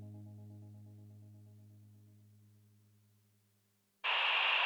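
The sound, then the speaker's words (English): Radio static from Ultra 106.5 off the air: a low tonal hum slowly fades away, then a loud, bright hiss of white noise abruptly bursts in and holds steady. “Hear that? That's the sound of Ultra 106.5 off the air.”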